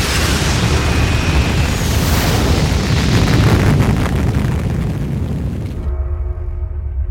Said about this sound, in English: 3, 2, 1. Blast off.